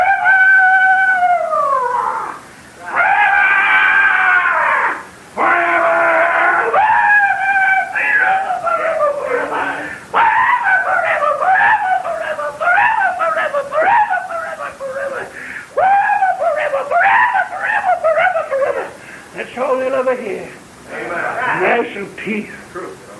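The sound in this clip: Eerie screams and wails meant as demons shrieking at the damned in hell, long wavering cries that slide up and down in pitch, loud and nearly unbroken, with only brief gaps.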